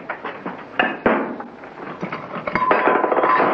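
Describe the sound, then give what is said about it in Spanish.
Dishes and crockery clink and clatter as breakfast is served roughly in a crowded Western saloon. Many sharp clanks and knocks come in quick, uneven succession and grow busier toward the end. “Le sirve el desayuno con brusquedad.”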